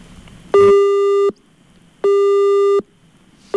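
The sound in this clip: A telephone busy tone after a call is disconnected: two long, loud, steady beeps separated by even silences, with a third beep just starting at the end, and no talking.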